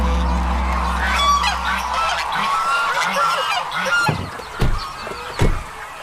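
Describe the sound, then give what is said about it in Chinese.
Honking of lion-head geese, China's largest goose breed, heavy-boned with brown plumage and a black fleshy knob on the head. The overlapping calls form a busy chorus, with a few loud, sharp honks standing out near the end. “身披棕榈，骨架粗壮，头顶黑色肉冠，这是中国最大的鹅——狮头鹅。”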